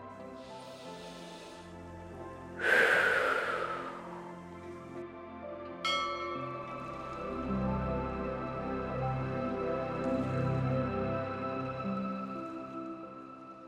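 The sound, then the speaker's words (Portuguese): A deep breath in and out during a guided breathing exercise, heard as slow, airy rushes of breath over a soft, sustained musical drone that continues throughout. “Vamos respirar fundo mais uma vez? Em 3, 2,”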